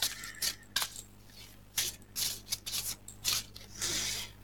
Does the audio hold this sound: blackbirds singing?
no